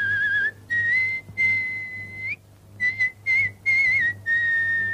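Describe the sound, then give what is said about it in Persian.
A man whistles a lilting tune in several short phrases separated by brief pauses, the clear, high tone steady with small wavers and slides, over a faint low hum. “به مرد زندانی شده نگاه میکنه و سوت میزنه.”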